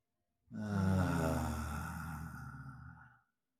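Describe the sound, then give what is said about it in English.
A deep breath is exhaled with a soft voiced sound during a guided breathing exercise, a single long sigh of nearly three seconds that starts strongest and gradually fades as it trails off. “Another deep breath. You might notice we're starting to make a little sound as we exhale.”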